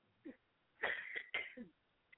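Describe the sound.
Harsh coughing and throat clearing come as a few rough bursts, two longer ones in the middle framed by shorter, fainter hacks, heard over a thin, phone-like line with no speech.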